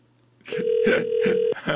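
A phone ringback tone on a call that goes unanswered: one steady, low, hum-like tone lasting about a second, with some brief noises over it.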